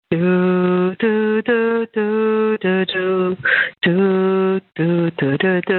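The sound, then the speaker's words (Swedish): A voice sings the theme from Dvořák's New World Symphony on a telephone answering machine, thin and narrow-toned, in phrases of sustained notes separated by short breaks. “Temat kommer strax efter inledningen här, och det är blåset som har det där spännande temat som vi just hörde sjungas på telefonsvaren här.”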